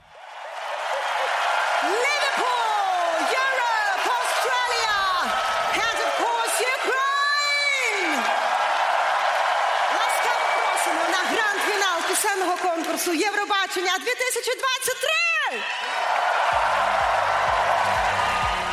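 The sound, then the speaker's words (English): Enthusiastic audience cheering at the opening of the Eurovision Song Contest 2023 grand final: loud continuous crowd noise packed with many high whoops and yells that rise and fall, never dropping away. “And this is how the song contest opened on the dynamic visual stage with a very enthusiastic audience.”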